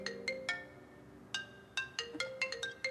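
A phone ringtone sounds for an incoming call that keeps ringing: a series of bright, plucked-sounding melodic notes repeating in an uneven pattern at moderate loudness, with no talking.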